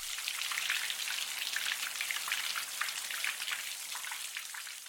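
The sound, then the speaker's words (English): Rain used as white noise: a dense, steady hiss of countless drops pattering on a surface, bright and continuous with no voices, holding an even level throughout. “And here's the sound of rain as white noise.”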